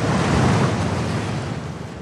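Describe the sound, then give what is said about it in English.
A huge ocean wave, about four stories tall, breaks into a loud, continuous roar of surf, a broad rushing wash with some wind noise that eases slightly toward the end. “Imagine a four-story building made of water, and it's coming at you at 30 miles an hour.”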